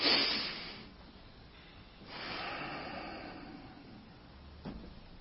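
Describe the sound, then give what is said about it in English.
A deep breath is taken in and slowly let out at an evening church service, heard as two faint swells of soft, airy breath noise with a quiet pause between them. “take a deep breath and let it out.”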